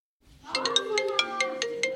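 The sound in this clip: A phone ringtone plays while a call to friends is being placed. After a brief silence, a bright electronic melody of short, repeated tones pulses in a steady rhythm, with no voices.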